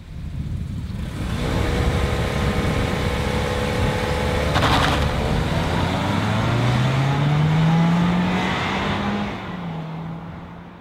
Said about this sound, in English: This is what four cylinders sounds like.